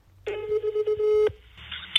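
Telephone dialing a call: a steady electronic tone is held for about a second, then gives way to a softer, higher tone.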